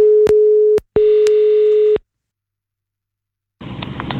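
Telephone ringing tone heard while calling someone back: a steady low tone with a few clicks, sounding for about two seconds in two stretches. Silence follows, then a burst of rustling line noise at the end.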